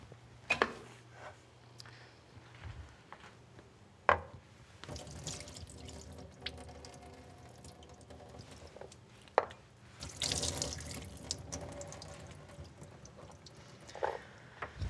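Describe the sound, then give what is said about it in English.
Liquid drains from two cans of chickpeas, giving a quiet steady trickle and splash. A few sharp knocks and a brief louder gush break it, with no one talking. “So we'll start with 2 of these cans. I'll just drain all the liquid off them.”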